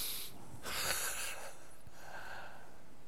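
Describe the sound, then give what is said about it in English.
A deep breath drawn in during a guided breathing moment, heard as a soft, airy rush of inhaled air that swells and then fades, steady and unhurried, with no talking. “You want to take a deep breath”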